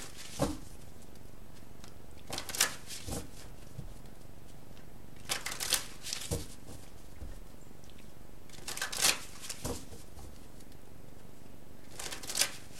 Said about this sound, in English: So let's just go ahead and get the cards drawn here, Cancer.